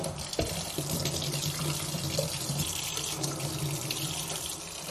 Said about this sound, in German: So, ich werde dann mal ein Behältnis mit kaltem Wasser vorbereiten.